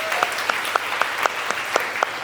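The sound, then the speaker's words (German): Short applause from a live audience welcoming a team member on stage: a steady bed of clapping with many evenly spaced, sharper accents giving it a regular rhythmic pulse. “Das ganz kurzen Applaus für Tobi einmal ganz kurz.”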